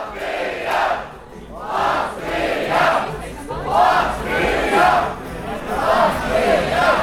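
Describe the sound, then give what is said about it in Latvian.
Fans chant and sing in a world championship fan tent. A crowd of voices rises and falls in rhythmic swells about once a second, steady and fairly loud, with general hubbub between the chants. “Jau tuvojoties fanu teltī dzirdami saukļi, dziesmas un kņada.”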